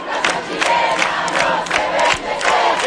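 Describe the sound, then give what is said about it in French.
Young students and high-school pupils chant in unison at a protest march along a main avenue of Chile's capital, a loud, dense crowd roar with rhythmic shouted bursts throughout. “Et hier, 1 millier de jeunes, lycéens et étudiants ont manifesté pour dire leur inquiétude.”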